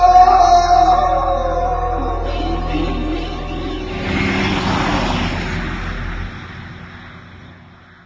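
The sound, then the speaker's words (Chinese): A car engine revs high as a rival car speeds past on the right during a street race: a loud, steady engine roar that swells briefly near the middle, then fades away toward the end, with no talking. “一下引擎高转嘅机器声由我右边飞过，系阿健”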